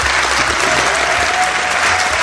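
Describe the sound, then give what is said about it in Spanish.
Loud audience applause for a guest, dense and steady throughout with no voices over it. “Os pido un aplauso para él.”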